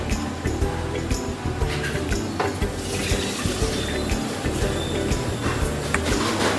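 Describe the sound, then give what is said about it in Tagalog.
Sisig, a chopped pork dish, sizzles as it goes into a hot pan to cook chamsig. A steady, loud frying hiss runs throughout, with scattered brief clicks and scrapes. “Umpisa ko na po. Lagyan na natin ang sisig.”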